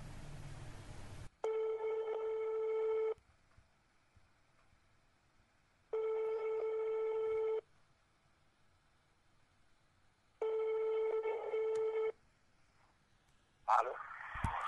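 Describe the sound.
Steady, buzzy telephone ringing tones sound on the line as a call is placed to Yaoundé: three evenly spaced tone bursts of about a second and a half each, with quiet gaps between, then a brief noisy burst at the end.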